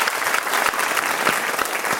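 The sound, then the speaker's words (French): Audience applause at a live recording of a literary talk programme: dense, steady clapping from a crowd, fairly loud and even throughout, with no voices on top. “J'applaudis Antoine Volodine et nos invités”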